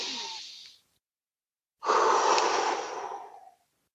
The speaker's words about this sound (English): I take a deep breath in before I take that action, before I surrender that thing that I'm surrendering. I take a deep breath in.